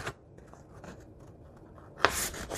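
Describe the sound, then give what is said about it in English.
A paper journal page being folded in half and creased: soft scattered rustles and scrapes, then a sharper, brighter crackle of paper near the end. “I'm pretending this is a journal page, so I'm going to fold it in half.”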